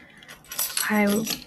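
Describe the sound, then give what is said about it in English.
Keys jangle as they are handled, a short, bright metallic rattle with a voice speaking over it. “I'm touching my keys.”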